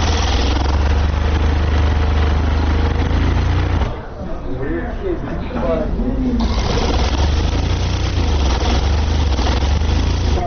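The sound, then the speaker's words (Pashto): Sewing machines whir steadily as workers stitch rolled wool pakol caps in a pakol and chapan tailoring shop. The machines run as a continuous loud mechanical hum that briefly drops in the middle, then resumes. “هر یو په خپل ماشین او کار سر ټیټ کړي او مخې ته پراته تاو شوي پکولونه ګنډي.”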